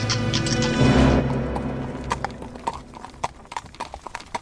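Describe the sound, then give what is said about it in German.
Horse hooves clip-clop as a horse-drawn carriage sets off, with many sharp, uneven hoofbeats that grow more distinct after a brief rumbling start. “setzen auch wir uns per Kutsche in Bewegung.”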